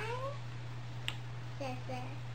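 Cat meowing: a few short, tonal meows that rise and fall slightly. They sound faintly over a steady low hum.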